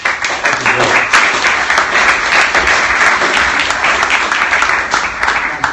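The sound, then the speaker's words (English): Audience applause welcoming a speaker to the stage at an evening event, a loud, steady wash of clapping that runs without a break for almost six seconds. “can I pass over to Gerald and ask you all to give him a, a welcome round”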